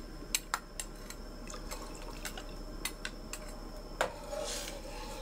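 Soaked sago pearls poured into a cooking pot make a faint, continuous wet rustle and splash, broken by many sharp little clicks and knocks against the pot.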